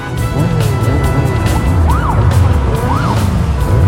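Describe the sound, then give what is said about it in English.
A police car speeds along with a loud, steady engine roar. A fainter siren wails over it, its pitch rising and falling in repeated sweeps. “Siren lights flashing, the police car speeds behind the bikers as they thunder toward the church.”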